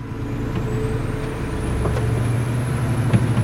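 A large freight truck moving goods on the road gives off a steady, heavy low engine rumble. A thin high whine runs continuously above it, with no voices.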